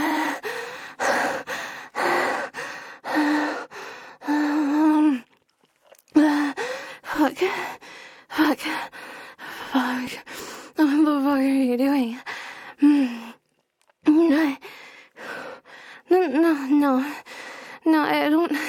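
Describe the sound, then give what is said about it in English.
A person gagging and gasping for breath, with many strained, voiced retching sounds and sharp gasps. They come in uneven bursts broken by a few brief silences. “I can't bear to look at his face while I'm gagging this loud around him. I need to breathe.”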